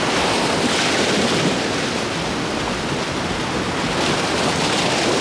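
Sea waves on a beach make a loud, steady roar of surf, with gentle swells in intensity and no voices.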